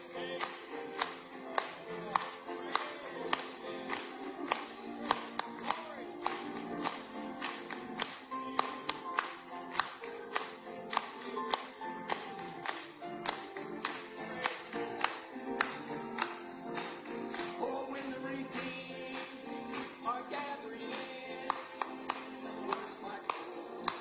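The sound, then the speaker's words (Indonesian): Many people clap their hands in a steady, regular rhythm, over a long stretch with music playing underneath. “Mari bertepuk tangan kepadanya.”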